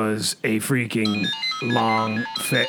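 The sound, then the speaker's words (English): A phone ringtone signals an incoming call, sounding as short, bright melodic tones beneath a man's loud, animated talking. “That sound is actually... Oh, my gosh, we are getting a freaking call from freaking Satellite freaking New York.”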